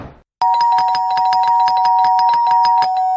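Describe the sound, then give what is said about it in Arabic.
An apartment doorbell held down without letting go. A loud electric ring with rapid rattling pulses starts abruptly and sounds without a break to the end. “كمل طلوع لحد ما وصل لشقة تانية وفضل معلق ايده على الجرس.”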